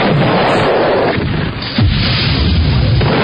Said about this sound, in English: Let's retire. The gun sound effects when you suggest retiring them.